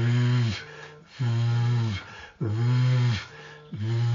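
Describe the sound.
Voice imitation of a goose call made without a call, pushing air from below the throat: a few loud, evenly spaced honking notes, each bending down in pitch at its end before a softer, lower tone follows.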